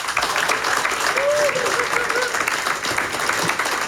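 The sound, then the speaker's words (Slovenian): Audience applause at Klub 300, a jazz club, with dense, steady clapping that fills all four seconds at a moderate, even level. “prosim posebej velike aplauze”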